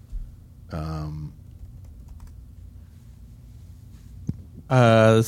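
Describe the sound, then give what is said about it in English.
Typing a name on a computer keyboard gives soft, irregular key clicks over a steady low hum, broken by two short bursts of a voice speaking. “Type in that name.”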